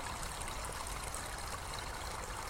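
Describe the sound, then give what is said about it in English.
A small stream of trickling water gives a soft, continuous babbling hiss, quiet and steady throughout. “I like to think of small streams like this one as like large waterfalls, but just shrunken down to a tiny scale.”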